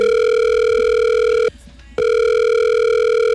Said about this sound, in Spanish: Siri, márquele ahí a mi candidato. Claro, mi querido presidente, marcándole al candidato presidencial.